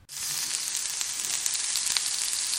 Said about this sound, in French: la lumine est en train de griller, on peut les saisir à la poêle. Là, on l'a, a mis euh, sur, un, sur un grill, quoi.